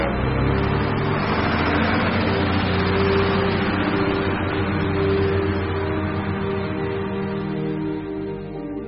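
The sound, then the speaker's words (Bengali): A bus driving off gives a steady, loud engine drone with a humming low tone that holds throughout and eases slightly toward the end. “Savitri নেমে যাওয়ার পর বাসটা আবার গন্তব্যে ছুটে চলল।”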